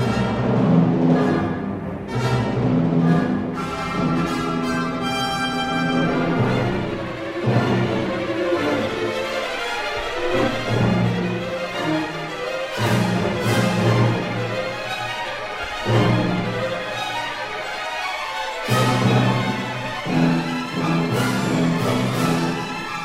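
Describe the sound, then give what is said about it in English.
Orchestral ballet music by Albert Roussel from The Spider's Feast, depicting a duel of praying mantises: a full orchestra plays loud and dense, with sharp accents and a few brief breaks in the texture. “That's the sound of battling mantises, I've ever heard it. That's exactly what it was. The duel of the praying mantises from The Spider's Feast by Albert Roussel.”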